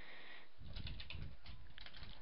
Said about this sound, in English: So I'm just gonna type in a little whimsical message.